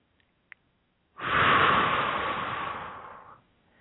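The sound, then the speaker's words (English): A deep breath drawn in through the nose: after near silence and a couple of tiny clicks, one long, steady, airy rush lasts about two seconds and then stops abruptly. “Let's just take a big breath with that one. In through the nose.”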